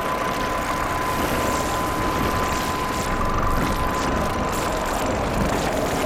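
A modular synth feedback patch routed from a matrix mixer through a chopping kinky wavefolder into stereo WASP and SVF filters produces a dense, steady roaring drone with a thin sustained tone inside it, unchanging in loudness throughout.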